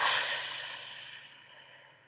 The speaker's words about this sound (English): Let's take a breath.